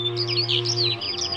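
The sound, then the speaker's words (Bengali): Birds chirp in a huge, ancient siris tree at dusk: many quick, high, bright tweets overlap in a steady busy chatter over a low constant hum, with no voices. “তাদের বাড়ি আসার পথে যে মস্ত আদ্যিকালের খিরিশ গাছটা, তার মাথায় পাখিদের মেলা বসে ওই সময়ে।”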